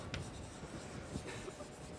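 Scratchy strokes of writing on a board, a faint, steady rasp of short marks running through the whole stretch with no talk over it.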